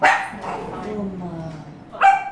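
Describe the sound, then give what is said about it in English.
A dog barks at a wine tasting, with two sharp barks, one at the very start and another near the end, separated by quieter low sounds. “Are you still going to try to just bark at me?”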